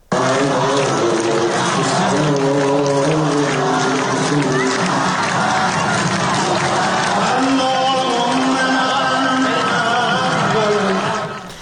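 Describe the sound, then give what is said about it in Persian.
A crowd at a funeral ceremony in Isfahan raises a dense, continuous uproar of clapping and massed shouting voices. It stays loud and unbroken for about eleven seconds before cutting off abruptly. “به شکل دست زدن و هیاهو تلاش کرده بودن این اظهارات رو قطع کنن. این صدای یکی از ویدیوهای منتشر شده از اصفهان هست.”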